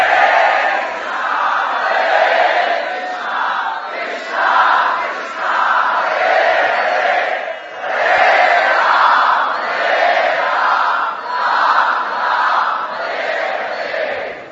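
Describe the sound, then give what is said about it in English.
A crowd loudly chants the holy names of the Lord, Krishna, in a devotional group chant. Many voices sing together without pause, swelling and easing in steady waves throughout. “in that spirit, we cry out the holy names of the Lord.”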